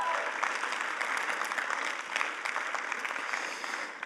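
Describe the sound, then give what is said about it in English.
Applause from a church audience for a speaker at a service, dense continuous clapping that holds at an even level for about four seconds without a break. “Come on, can we give it up for Mike one more time too?”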